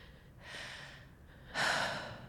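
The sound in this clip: A person breathes deeply: two slow, airy breaths, the second louder and fuller than the first, over a faint quiet background.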